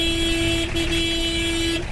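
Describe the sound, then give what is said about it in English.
Car horns blare on a crowded, narrow road in Pakistan as thousands of people set off for home. A steady, loud horn tone holds for most of the stretch, breaking off briefly twice, over a dense traffic rumble. “Car horns soon blare as thousands jostle for space on the narrow road to begin their rugged journey back home.”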